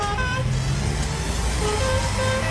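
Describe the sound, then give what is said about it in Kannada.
A blue Maruti car on a street, heard as a steady, broad engine and road rumble with faint tonal hints of horns in the traffic, holding an even level throughout. “ಅಲ್ಲಿ ಒಂದ್ car ಬಂದು ನಿಂತ್ಕೊಳ್ತು. ಅದೇ ಆ ನೀಲಿ ಬಣ್ಣದ Maruti car.”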